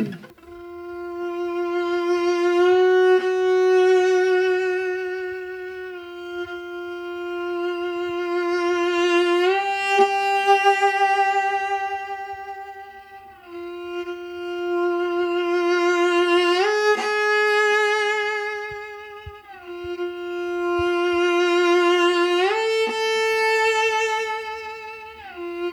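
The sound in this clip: A bowed string instrument plays an interval exercise of sustained notes that swell in crescendo with vibrato and then shift up a step. It repeats in about four long swelling phrases, each climbing higher, with the tone rich and steady and no voices.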